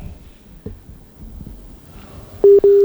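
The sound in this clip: Two steady telephone line tone beeps sound near the end as a call is picked up. Before them there is only faint, low background noise.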